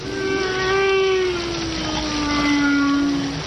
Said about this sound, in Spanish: Es el cantar de las ballenas. A veces el graznido de una gaviota al volar. Es el suave murmullo de las olas que golpean la blanca arena en la playa.